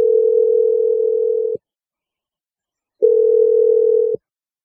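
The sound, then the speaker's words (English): Telephone line tone after a number is dialed: two steady, low-pitched electronic tones, each over a second long, separated by a silent gap of about a second and a half, with no voices. “Dial the number right now.”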